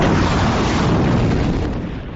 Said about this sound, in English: Iranian state media earlier confirmed the launch, releasing a video it says captures missiles headed towards Israel.